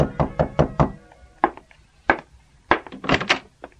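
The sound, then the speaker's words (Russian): Knocking on a door: a quick, evenly spaced run of four sharp knocks, then a pause and several more scattered, heavier knocks and thuds, all fairly loud and with no voices. “Скоро бедняки стали все чаще стучаться в двери к Мюллерам и просить о помощи. Потом начали стучать и соседи.”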